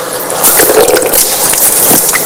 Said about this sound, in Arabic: هكذا أخذت الماء بيدي ثم غسلت وجهي، أعيدها مرة ثانية، أو هي ثلاث مرات في الأصل